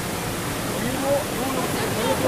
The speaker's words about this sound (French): Elle démultiplie, ça monte. Là, l'eau va sortir de ce côté. Elle sort là-bas, l'eau.